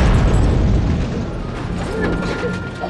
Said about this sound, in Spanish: Otra vez las bombas. Me parece que estas van a ser las últimas.